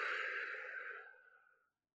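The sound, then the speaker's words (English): A deep, slow exhale out through the mouth as part of a guided grounding breathing exercise: one soft, airy breath that starts fairly full and gradually fades away to silence. “take in a deep breath through your nose. With me now, out through your mouth.”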